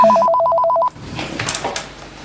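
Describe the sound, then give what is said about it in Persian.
A telephone rings indoors with a rapid warbling two-tone trill. The loud trill lasts under a second, then cuts off, leaving faint background rustling. “بیا این تلفن رو جواب بده”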